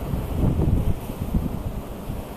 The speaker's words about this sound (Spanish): que en este momento baña y baña piedras con agua salada